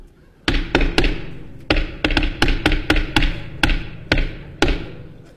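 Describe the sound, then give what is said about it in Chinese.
Knocking on a door during a stage comedy crosstalk routine: many sharp, loud knocks in an uneven rhythm, with no talk over them. “你干嘛呢？ 敲门。”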